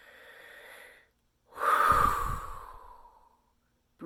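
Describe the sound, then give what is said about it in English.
A soft breath drawn in during a guided meditation, then after a short pause a sharp, forceful exhale, loud and breathy, that trails off over about two seconds. “Breathe in, exhale sharply.”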